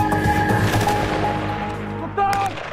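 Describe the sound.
Gunfire from Dutch army shooting practice with live ammunition, heard as loud, harsh bursts, with a sharp new burst near the end.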